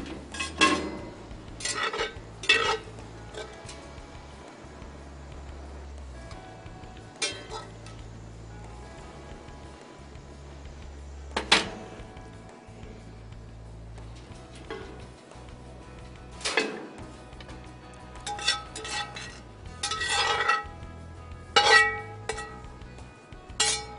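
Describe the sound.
Dishes and cutlery clink and clatter while cooked food is plated up in a kitchen. Many irregular sharp chinks and scrapes ring out over a low steady hum, with no talking.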